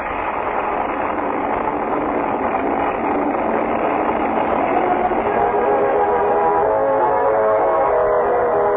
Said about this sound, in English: Sounds like some kind of a machine. What is that, right? It's a motorcycle. Somebody's riding a motorcycle